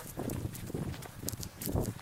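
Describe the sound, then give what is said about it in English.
Running footsteps as a runner passes by, a quick run of soft, uneven thuds and scuffs that carry on steadily through the moment at moderate loudness. “Just a bit of a drive-by runner there. It's always funny, isn't it? Someone comes sneaking up behind you whilst you're talking to yourself.”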